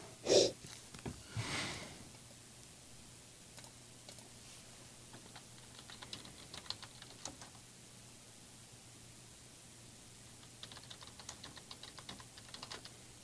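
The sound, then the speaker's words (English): Typing on a computer keyboard: quiet clusters of key clicks come in short bursts separated by pauses over a faint steady hum, with a couple of louder, breathy noises near the start and no talking. “Why'd I type that in? I typed the dumbest fucking shit in.”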